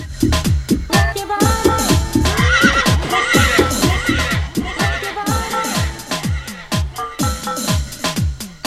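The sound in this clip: A horse neighs over and over, many loud whinnies with falling pitch following closely one after another and overlapping throughout.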